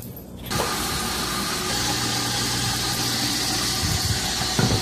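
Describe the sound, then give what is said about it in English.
Chopped onion and prosciutto simmer in a pan, giving a steady, fairly quiet sizzling hiss that starts after a short pause and carries a few faint clicks. “and some onion. I'm going to let that simmer for a little bit.”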